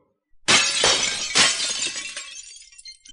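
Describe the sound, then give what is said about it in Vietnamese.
Glassy shattering of ice-frozen light shields struck by a giant sword bursts in loudly with one crash, then a second crunching hit and a tinkling tail that fades away. “Âm thanh vỡ vụn vang lên, tất cả quang thuẫn bị cự kiếm trảm trúng đều bị lam diễm đông kết thành băng lấp lánh, sau đó bị chém vỡ vụn.”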